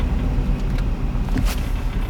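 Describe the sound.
A car drives through traffic, slaloming between other vehicles, with a steady, even low engine and road rumble throughout and no talk.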